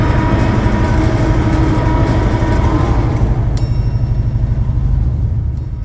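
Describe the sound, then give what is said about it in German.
A nuclear reactor powering up after valves are opened gives a loud, steady low mechanical drone with a fast rhythmic throb. Thin, high-pitched whining tones join partway through as the rumble carries on. “Ventile öffnen. Der Reaktor fährt wieder hoch. Leistungsstufe 1.”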